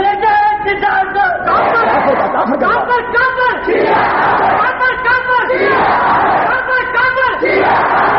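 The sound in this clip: A crowd in a mosque loudly chanting a slogan in unison, repeating the same shouted phrase in a steady rhythm and staying dense and strong throughout.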